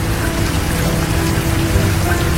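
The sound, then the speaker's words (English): Steady rain falling: a loud, continuous hiss of dense raindrops on surfaces, unbroken and even throughout, with no talk. “It's raining.”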